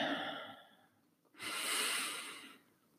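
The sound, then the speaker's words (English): Deep, slow breathing during a guided relaxation exercise: an airy breath fades away, then after a short pause one long, loud, steady inhale is drawn in and eases off. “But before, please take 3 very deep breaths. Breathe in.”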